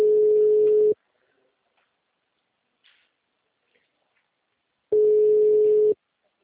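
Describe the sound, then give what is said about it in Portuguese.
A telephone ringback tone plays while a call is being placed: two steady, mid-pitched one-second tones separated by several seconds of near silence. No one speaks. “Tô ligando pra esse safado.”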